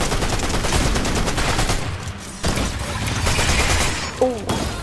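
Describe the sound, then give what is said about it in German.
A shotgun fires in a video game amid dense, rapid gunfire. Loud crackling blasts pile on top of one another almost without a break, dip briefly midway, then resume just as heavily. “Oh Leute, das ist die neue Waffe, die Torwächter-Schrotflinte.”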